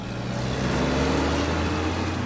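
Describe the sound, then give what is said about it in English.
Steady low engine rumble of tractor trailers streaming along a dusty four-lane highway toward a large warehouse, a continuous droning hum with no breaks and no voices. “On a dusty four-lane highway a few miles from downtown Rialto, tractor trailers stream into a sprawling FedEx warehouse.”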